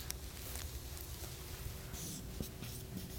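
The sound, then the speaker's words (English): Faint marker strokes on a board as a square is drawn and a name written, a few short scratchy passes against a low steady background. “And for those on tape, I'm writing a square and I'm putting the name Jesus over it. And then I'm putting another square inside the square.”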